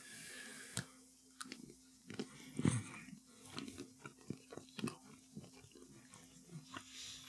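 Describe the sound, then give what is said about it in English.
Someone bites into a dark chocolate-covered almond and chews it, making a series of quiet, irregular crunches and wet mouth sounds, with a few sharper snaps in the middle. “Because I'm going to bite it in half so I can show a cross section to the camera. Okay, I'll bite it in half.”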